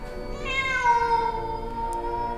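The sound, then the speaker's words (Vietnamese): A wild cat yowls from the tree branches at night: one long, mournful wail that climbs and then settles, loud and alone. “Bỗng một trong những bóng đen đó lại kêu lên một tiếng ngao thảm thiết.”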